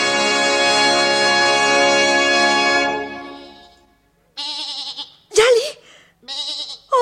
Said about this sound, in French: Ma petite bête, ma chèvre, c'est toi.